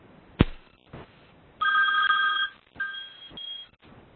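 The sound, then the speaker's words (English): A telephone ring tone sounds while someone dials back into a call, heard through a narrow phone-line sound. A sharp click comes first, then one long tonal ring and two shorter ring bursts. “I'm getting a dial back into the call. So, if you can give me just a couple of seconds.”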